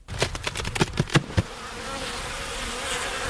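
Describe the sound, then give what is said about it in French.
Honeybees buzz at an opened hive as its roof is lifted. A few sharp knocks at the start give way to a dense, continuous, fairly faint hum of many bees. “Les abeilles s'activent.”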